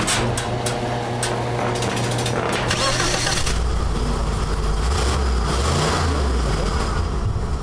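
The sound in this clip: A V8 car engine revs and rumbles in a loud, continuous roar with deep low tones. After a few seconds of harsher noise, the pitch shifts up and down.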